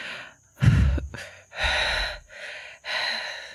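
Several deep breaths drawn one after another, long airy inhales and exhales with short pauses between them, and no talking.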